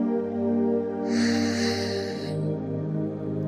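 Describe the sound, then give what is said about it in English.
A single long, airy breath during a guided confidence meditation rises over a soft sustained musical drone and fades after about a second and a half. “take a deep breath in”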